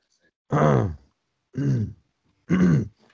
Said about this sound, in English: Excuse me. Sorry, I was just choking on the corniness of that scene for a second.